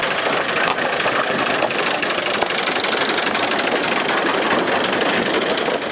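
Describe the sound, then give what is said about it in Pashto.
Steady engine rumble of trucks loaded with stones, gravel and sand passing by along a riverbank, a dense, even roar with no pauses and no voices. “اخوا کې د کاڼو باجری او شګې ډک ټرکونه تیریږي”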